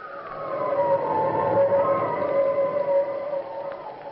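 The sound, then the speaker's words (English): Howling wind, a steady moaning whistle with a slowly sinking tone over a hissing rush, sustained and fairly loud throughout. “Listen to that wind”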